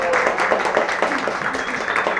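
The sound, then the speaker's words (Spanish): Audience applause at a payadoras gathering, in honor of a cueca singer's farewell: a brief, dense wash of clapping that stays fairly even throughout. “¡Un aplauso para ella!”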